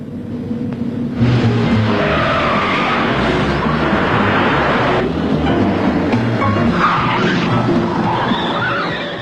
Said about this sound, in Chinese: 一场精彩的追车表演开始，当然最后的获胜者是耀子和明仓。